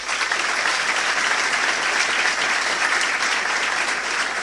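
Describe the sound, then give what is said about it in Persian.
An audience applauds in someone's honour, a loud, even wash of many clapping hands that holds steady from start to finish with no voices over it. “به افتخارش دست بزنی”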